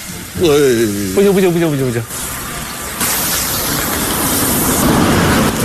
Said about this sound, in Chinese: 接下来我们用第五个我们的原料进行油锅灭火实验， 是菜叶子，平常家里洗菜的那种菜叶子，没有沥干水的菜叶子，我们来试一下它的灭火效果。